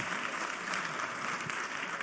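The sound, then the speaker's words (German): An audience applauds during a sermon, a continuous wash of many hands clapping at an even, rather quiet level throughout. “Gebt ihnen nochmal einen Applaus.”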